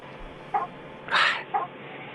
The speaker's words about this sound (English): I'm going to kick the chicken if you don't get him... If you don't pick him up, he's biting me again.